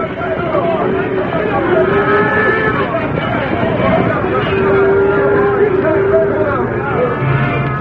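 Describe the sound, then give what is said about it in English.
Herd of cattle stampeding into a camp, with loud bellowing moos rising over a dense, constant rumble of hooves that stays heavy from start to finish. “into the herd. Stampede them. Get moving.”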